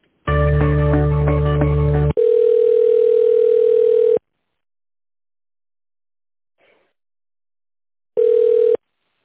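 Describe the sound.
Telephone line tones sound while a call is being connected. A buzzy, multi-tone signal lasts about two seconds, then a steady single tone runs for about two seconds. After a silent gap, one short tone burst follows.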